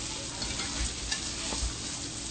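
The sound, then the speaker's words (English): Cutlets fry in a pan with a steady, even sizzle and faint scraping and stirring noises, and nobody speaks. “So, as we now remove our cutlets,”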